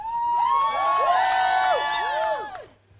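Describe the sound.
A crowd of about a hundred fans shouts and cheers outside a California court, calling for Britney Spears to be freed. Loud, overlapping voices rise and fall in chant-like whoops, then fade at the end.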